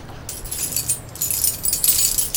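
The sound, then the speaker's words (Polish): A bunch of keys jangles as a door is locked: bright metallic jingling in irregular bursts that runs through the whole clip, with no voices. “Zamykamy drzwi.”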